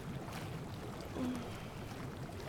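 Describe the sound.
Bathwater sloshing and splashing as someone washes during a long soak, a steady soft wash of water with a slight swell midway.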